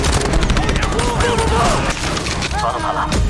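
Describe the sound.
Sniper gunfire bursts out in a loud, dense barrage that runs without a break for about three seconds, with voices mixed into the noise.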